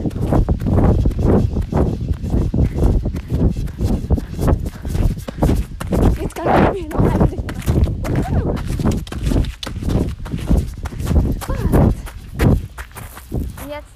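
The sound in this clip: Rapid, steady footfalls of a person galloping fast on a hobby horse across a meadow, with loud rhythmic thuds running through the whole clip.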